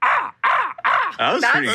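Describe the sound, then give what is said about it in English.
A person imitates a crow, voicing a run of loud, harsh cawing calls, each dropping in pitch, separated by brief pauses. “I can't do impressions, okay? How about a crow? How about a crow?”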